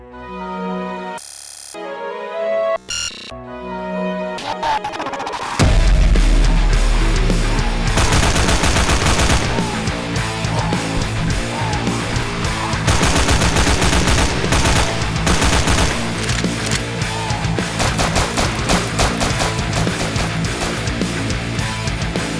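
Rapid machine-gun fire and gunshots pound over loud music in a gameplay trailer for Matterpak Attack, a zombie-fighting video game. A few sparse tones open it before dense, continuous shooting takes over.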